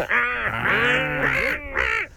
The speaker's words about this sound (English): A seagull. Oh, yeah, that was a bit of a gull, wasn't it?